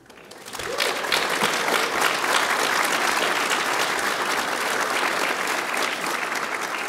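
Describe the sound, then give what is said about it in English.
An audience breaks into applause at the Federalist Society's 40th anniversary event. The clapping swells quickly in the first second, then holds dense and loud until the end. “Applause is appropriate. Thank you for that.”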